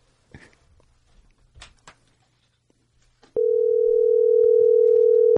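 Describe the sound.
A telephone dial tone while a call is being placed. A few soft clicks and handling noises come first, then the tone starts abruptly and holds as a loud, continuous, even hum to the end.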